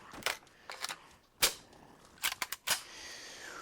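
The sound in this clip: Gunfire from shooting in a video game mission: several sharp, thin, crack-like shots in irregular bunches, fairly quiet, with faint hiss between them.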